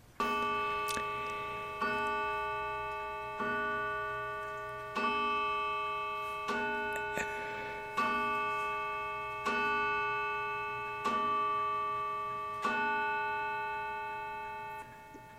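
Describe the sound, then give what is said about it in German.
A clock sounds about ten regular struck, bell-like tones roughly every one and a half seconds, each ringing clearly and fading before the next. “Ich liebe die Uhr”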